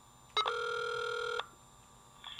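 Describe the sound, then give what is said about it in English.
A computer modem dialing phone numbers: a short click, then a steady electronic telephone tone held for about a second, with a fainter tone starting near the end; no talk. “My computer dialing phone number after phone number, looking for modem carriers.”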